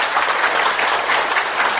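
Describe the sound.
Audience applause for a group of volunteers at a church gathering: a short, dense, even wash of clapping that fills the whole clip.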